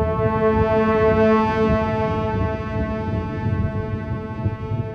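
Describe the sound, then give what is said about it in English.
A very loud, sustained horn blast sounds amid thunder, lightning and heavy cloud on the mountains, one unbroken, rich, droning tone held for the full length with a low rumble underneath. “a very loud sound of a horn, so that all the people who were in the camp began to tremble”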